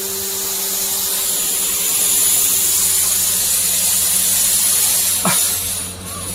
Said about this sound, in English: Bring on the smoke machine.